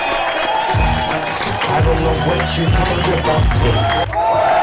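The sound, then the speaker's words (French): Audience at a stand-up comedy show in a bar in Quimper, a dense, steady din of many voices and crowd noise with bursts of clapping and cheering. “écoutez l'ambiance qui anime la cervoiserie de Quimper lors d'un spectacle du Carton Comedy Club.”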